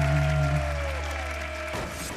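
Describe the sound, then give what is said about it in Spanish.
Audience applause right after a sung love song, a dense, steady wash of clapping with a sustained tone fading out beneath it before the clapping continues alone. “Aplauso para los dos.”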